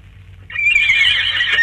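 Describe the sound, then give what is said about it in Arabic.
A wild mare neighs on a seashore: after a brief low rumble, one long, loud, high whinny starts and holds steady with a wavering tone right to the end. “اتهيالي اني سمعت حصان بيسهر. الله، ده صوت حصان ولا انا بتهيالي؟”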